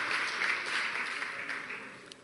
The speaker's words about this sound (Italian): Quindi io credo che gli dobbiamo fare un grandissimo applauso, dargli il benvenuto sul palco.